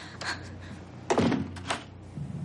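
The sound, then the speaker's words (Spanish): A door is closed with a single dull thunk, quiet against a faint background with a few softer knocks and rustles. “cierra la puerta y él se marcha lentamente.”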